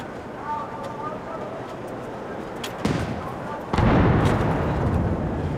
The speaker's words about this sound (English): And the gun salute continues as we see thousands of people gathered at the front of the palace, Buckingham Palace.